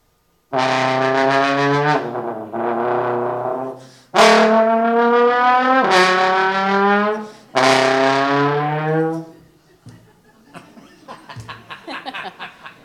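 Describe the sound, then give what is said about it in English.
A voice imitates a car driving down the road and shifting through many gears, with several sustained droning, engine-like vocal tones broken by short gaps, then a quieter sputtering rattle at the end. “he just went down the road shifting gears, and he never ran out of gears. And it sounded like...”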